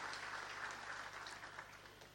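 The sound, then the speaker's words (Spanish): Applause from a church audience welcoming guests, including visiting priests from Poland, at a Sunday Mass: a steady, even wash of clapping that holds for about two seconds without any voices on top. “los recibimos con un caluroso aplauso”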